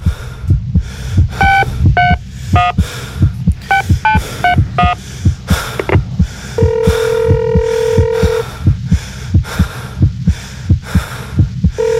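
Telephone tones: quick bursts of dialing beeps, then one long steady ring, all over a loud, regular, heartbeat-like thumping pulse that runs through the whole passage.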